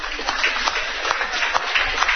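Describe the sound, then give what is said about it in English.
Audience applause welcoming a college golfer on stage at a coaches show: dense, continuous clapping at a fairly even, loud level, without talk. “Let's give Stephanie a nice round of applause.”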